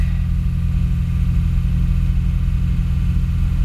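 A car engine runs while the clutch is released and light throttle is added during warm-up. It gives a dense, loud low rumble that stays even and continuous, with no clear rise in pitch.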